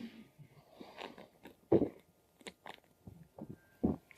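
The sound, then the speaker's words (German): Someone taking a drink: soft, quiet sips and mouth noises punctuated by two louder gulping swallows, with no talking. “Das ist der Moment, wo ich einmal was trinke.”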